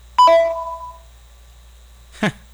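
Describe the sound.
A single two-tone keypad beep sounds as a telephone is dialed. It starts loud and fades over about a second, followed by quiet and one brief noisy burst near the end.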